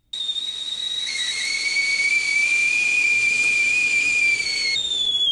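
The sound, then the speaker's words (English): A whistling steam kettle gives a loud, shrill, steady tone over rushing hiss, sustained for the whole clip with a slight shift in pitch near the end. “Was that a steam kettle? Yes, it was.”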